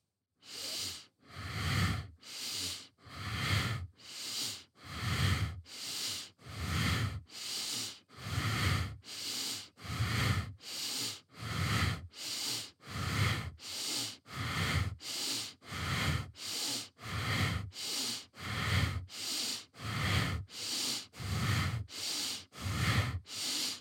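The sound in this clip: Bastrika bellows breathing in a yoga practice produces many rapid, forceful breaths, each a loud whooshing rush of air through the nose in a steady, even rhythm, heard alone without talk.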